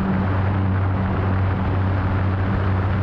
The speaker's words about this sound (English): In May of 2020, they flew this Cessna Caravan retrofitted with one of their motors.